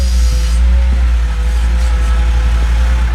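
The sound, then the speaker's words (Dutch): Wheel loader engine at a municipal works yard, loading salt into a blue gritting truck: a steady, heavy low rumble of diesel machinery that holds at an even, loud level throughout. “Een shovel hier op de gemeentewerkplaats die toch echt heel veel zout hier pakt. Richting een strooiwagen. Blauwe wagen. Ja hoor, dan gaat de bak.”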